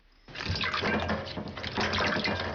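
Water pours over dried dates to soak them, a steady, splashing, bubbling rush that starts abruptly and keeps flowing to the end.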